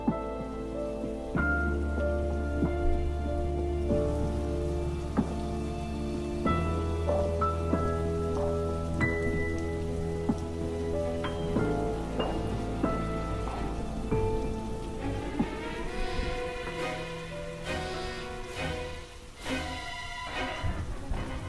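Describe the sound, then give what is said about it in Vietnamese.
Heavy rain pours down steadily throughout, a dense, even hiss that holds at a constant loudness. “Cơn mưa cứ thế nuốt chửng lấy hình bóng của bà già.”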